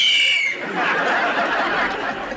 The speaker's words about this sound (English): Police whistle.